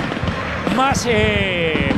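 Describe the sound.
Fireworks and flares set off by Rosario Central and Estudiantes fans during the stadium reception for a football match, with steady crowd noise and a few whistling tones, under a commentator's talk.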